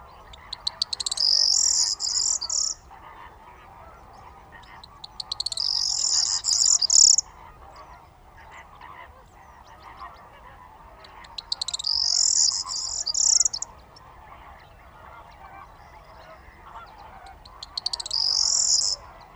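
A corn bunting sings on waking at dawn after roosting in reeds, giving four high, jangling song phrases of about two seconds each, separated by pauses over faint low background noise.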